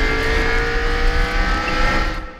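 A race car engine in a racing video game revs in a loud, steady, whining drone that holds throughout and eases slightly at the very end.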